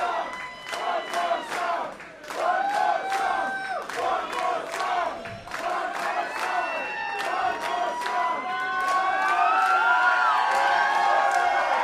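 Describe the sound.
A concert audience chants for one more song: a loud crowd of many voices shouting in a steady, repeated rhythm throughout, swelling slightly toward the end.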